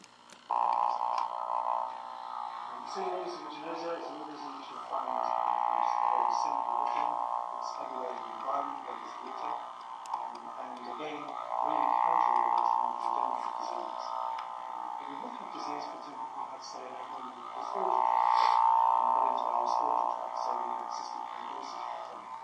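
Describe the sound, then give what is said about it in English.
A fan spinning right beside the microphone makes a continuous droning buzz like a didgeridoo, steady for the whole stretch beneath a lecturer's talking voice. “it sounds like a didgeridoo is playing throughout the lecture, because the fan is obviously spinning and making this noise so close to the mic”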